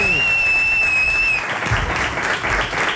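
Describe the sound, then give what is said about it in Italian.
Studio audience applause for a caller, following a steady electronic tone with bright harmonics that cuts off partway; a dense, even patter of clapping fills the rest. “E adesso ti becchi l'applauso del pubblico di Radio 2”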